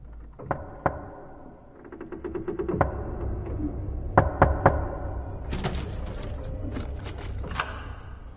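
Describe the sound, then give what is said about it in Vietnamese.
Rhythmic knocking on a door with a finger: a few sharp, separate taps, then a quick run of lighter taps, then a tight set of three louder knocks, followed by fainter rattling taps. “Tiếng gõ cửa rất có tiết tấu, cũng không phải chỉ đơn giản như là gió thổi cỏ lay, mà là có người dùng ngón tay gõ cửa 3 tiếng 1, cộc cộc cộc.”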